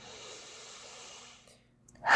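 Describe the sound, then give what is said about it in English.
A big deep breath drawn in as a soft, steady airy rush lasting over a second, fading into a short silence before another louder breath begins. “Big deep breath.”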